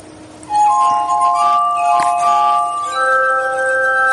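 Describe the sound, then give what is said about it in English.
Glass armonica made of nested custom-blown wine glasses on a rotating assembly, played piano-like. Sustained, pure ringing tones layer into chords, with a new pitch entering partway through. “So these are all wine glass, basically custom-blown wine glasses, and they're all nested inside of each other, and the whole assembly is turning so you can play it somewhat piano-like.”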